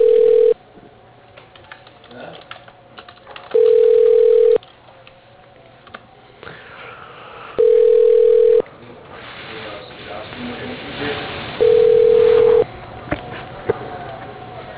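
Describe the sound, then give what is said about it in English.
Telephone ringing tone plays while a call is transferred to a country club office line: four steady, mid-pitched tones about a second long, evenly spaced, over a narrow, hissy phone-line background. “All right. I'll transfer you over there now.”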